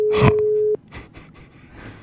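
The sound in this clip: A telephone ringing tone on an outgoing call: one steady, pure mid-pitched tone lasting under a second, ending abruptly and followed by faint breathy rustles and low noise.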